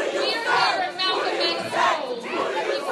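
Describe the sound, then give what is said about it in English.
A crowd of audience members from the Black Lives Matter movement protesting at a mayor's press conference: many voices shouting and clamoring together in a continuous, loud din. “When the mayor announced plans to put more officers on the streets, at least a dozen audience members from the Black Lives Matter movement erupted in protest.”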